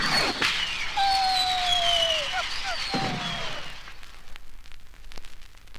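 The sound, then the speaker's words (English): A bottle rocket is launched at home on Independence Day. Its thin whistle glides slightly downward in pitch over a rushing, crackling hiss, then fades into faint pops and noise. “Say, Mom, can I go out and shoot this bottle rocket, huh?”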